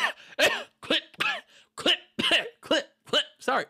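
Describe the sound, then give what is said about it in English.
Short, voiced coughs from a person, a quick run of about nine small bursts in an even rhythm, each clipped and throaty, with no talk between them. “I got the little coughs, the little clip-clops there.”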